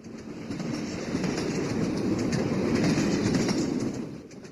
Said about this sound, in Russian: Путешествие в грузовом вагоне — это, конечно, нечто особенное. Чувствительная вибрация, многократно усиливающийся эхом пустого пространства стук